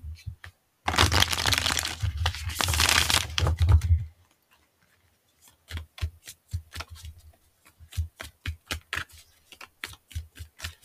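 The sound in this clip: Shuffling of a stiff deck of cards: a dense, continuous riffling rush lasting about three seconds, then a quiet gap and many sharp, irregular clicks and taps as the cards are handled.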